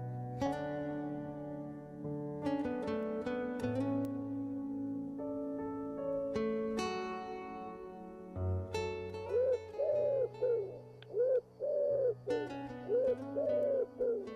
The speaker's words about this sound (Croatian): Koristim bijele golubove za takmičenje ako mi je potreba.